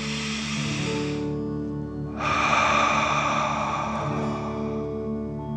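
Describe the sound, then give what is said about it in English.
A deep breath is drawn in through the chest and belly and then let out during a guided breathing exercise, over soft sustained music. A short airy inhale is followed by a pause and then a longer, fuller exhale. “let's take one more deep dragon breath. Fill up your chest and belly, in and out.”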